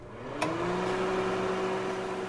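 Steady low electric hum of a microwave oven heating soup on its rotating turntable, starting with a brief click and settling into an even, continuous drone with no voices.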